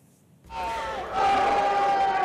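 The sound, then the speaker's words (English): A hostile crowd at a heated town hall at the University of Utah. Near-silence gives way to a swell of shouting voices that grows louder again partway through and holds as a sustained roar. “they were met by a hostile crowd”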